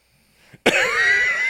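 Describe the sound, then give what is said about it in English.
A person takes a deep, aggressive inhale: after near quiet and a faint breath, a sudden loud, rushing intake of air starts sharply and holds strong to the end. “just inhaled deeply and aggressively.”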